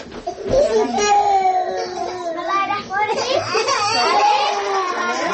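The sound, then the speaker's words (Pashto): Young children aged one to five crying and reciting lessons together in a small room of the women's prison in Balkh, high voices overlapping continuously with wailing and chanted speech. “څوک ژاړي او څوک درس وایي”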